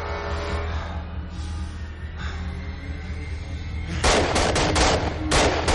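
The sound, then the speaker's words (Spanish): Guards firing muskets from the windows around a town square, a cluster of several sharp, loud cracks in quick succession near the end, after a stretch of steady low rumble. “Águila Roja salta del caballo, gira en el aire, esquiva las balas de los guardias y cae de pie al suelo.”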